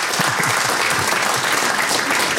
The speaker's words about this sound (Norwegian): men vi tar en applaus for prisvinneren